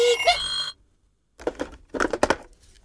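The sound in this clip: A telephone rings in a short burst of bright, harmonic tones lasting under a second, then a brief silence before a voice speaks.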